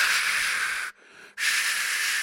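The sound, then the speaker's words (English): A voice imitates a furious, heavy snowstorm with loud, steady breathy hissing. Two long hissing bursts are split by a short pause for breath. “So much snow, I had to stop and take a breath to make the sound effect.”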